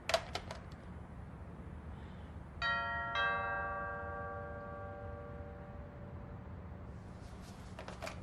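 A doorbell chimes two clear notes in quick succession, each ringing out and fading slowly over a quiet background, with no voices.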